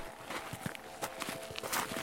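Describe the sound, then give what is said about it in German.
Footsteps crunch on black volcanic soil along a hiking path at the foot of a volcano, a steady quick series of gritty steps over about two seconds with no voices. “Schwarze Vulkanerde knirscht beim Laufen unter den Füßen.”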